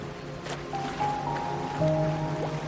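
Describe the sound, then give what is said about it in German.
Water gently splashing and lapping in a canal beneath a gondola, soft and low, with faint sustained tones above it. “Das Plätschern und das leise Singen des Gondoliere sind unheimlich entspannend.”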